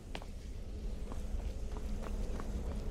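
Running footsteps of a player character in a video game, quick, light, faint steps over a steady low background rumble.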